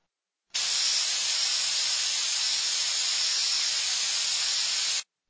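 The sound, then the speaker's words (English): An aerosol spray can lets out a single continuous hiss lasting about four and a half seconds, steady and bright, alone with no other sound. “It is an aerosol spray can.”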